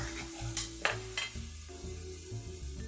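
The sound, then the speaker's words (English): Drained black beans hit a hot pan and sizzle, with a few sharp clatters of tossing and stirring early on, followed by a steady frying hiss. “So, I have some black beans that I've drained here and just tossing them in the pan.”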